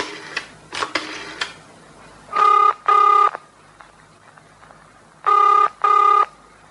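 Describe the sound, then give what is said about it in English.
Telephone sounds while calling the police: a few clicks, then four buzzing ring tones in two pairs, loud and even, with no voices. “How does one dial the police?”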